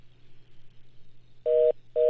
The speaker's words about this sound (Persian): متاسفانه ما ایشان از خط تلفن از دست دادیم.